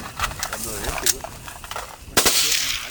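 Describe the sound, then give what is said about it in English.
Gunfire from illegal automatic weapons, AK-47s and M-16s, shot at pumpkins scattered in a field: a few sharp, loud cracks burst out amid dense noise while voices talk. “They shot illegal automatic weapons Brian provided, those AK-47s, M-16s, using pumpkins they'd scattered about in the field as targets.”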